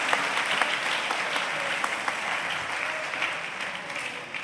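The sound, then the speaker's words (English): Applause from a church audience welcoming an archbishop to preach the word, a dense, steady wash of many hands clapping that holds evenly from start to finish. “Hands together to welcome our Archbishop Titus to bring us the word of the Lord.”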